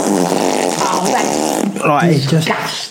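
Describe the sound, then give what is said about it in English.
A voice imitates a big fart with a long, buzzy, rasping drone that holds for over a second, followed by a further voiced stretch. “Honestly, just this massive fart.”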